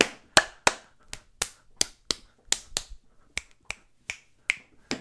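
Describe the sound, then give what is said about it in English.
Hand jive performed with lap slaps and hand claps: many crisp, sharp smacks in a brisk, steady rhythm, each a short, bright percussive hit with brief silence between. “Look, it's an audio podcast. You just got to take my word for it that I'm doing the hand jive.”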